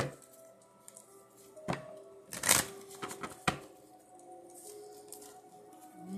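Tarot cards being shuffled make soft papery riffling broken by a few sharp slaps and taps of cards over a quiet background.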